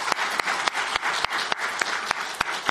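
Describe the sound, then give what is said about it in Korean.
Congregation applause in a church, with steady clapping from many hands and regular louder claps standing out at an even pace. “네, 박수 한번 할까요?”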